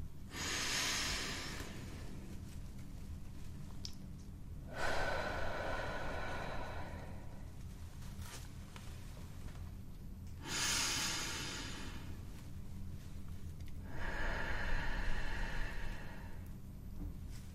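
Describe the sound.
Slow, deep breathing during a medical back examination: about two full cycles of airy, hissing inhales and exhales with quiet pauses between, steady and moderately loud, with no talk.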